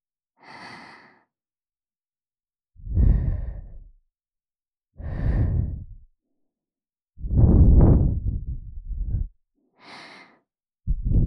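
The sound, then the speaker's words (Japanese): Soft puffs of breath blown into an ear to clear away small bits of earwax, several airy bursts with low, rushing gusts and quiet pauses between them, with no talk. “最後にふうふうして小さい耳垢を飛ばしちゃいますから。”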